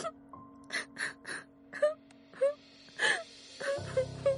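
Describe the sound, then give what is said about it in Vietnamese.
Soft moaning drifts from a dark, quiet backstage area of a theatre: a string of breathy, wavering wails with short pauses between them, ending in a lower, rougher groan. “Lúc này lại nghe thấy âm thanh rên rỉ yếu ớt vọng đến.”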